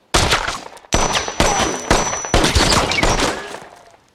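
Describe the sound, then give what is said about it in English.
Rapid gunfire during shooting practice: a quick run of sharp, loud shots in several close bursts, each cracking hard and trailing into a ringing tail. “Go rapid fire.”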